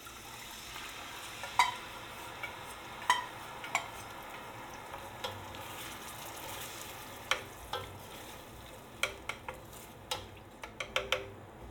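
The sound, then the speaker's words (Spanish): Mixed homemade barbecue sauce for pork ribs simmers after being poured onto cooked onion, giving a faint, steady sizzle broken by many light clinks and taps of a utensil against the pan. “Transcurrido el tiempo de cocción de la cebolla, incorporaremos ahora el resto de los elementos de la salsa que ya tenemos mezclados.”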